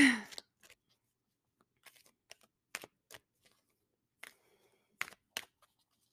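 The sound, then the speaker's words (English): Tarot cards handled as a surrender card is pulled from a deck: scattered soft, papery clicks and flicks come in irregular, quiet bursts separated by near silence. “So I'm going to pull a surrender card because this was such a powerful reading.”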